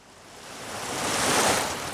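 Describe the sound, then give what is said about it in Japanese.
Sea waves washing onto a sandy beach on a summer day: a soft, hissing swell of surf that builds steadily, peaks near the end, then eases slightly. “今日はな、うちと、リオと、泉とちさ、四人で海に来とるんや。”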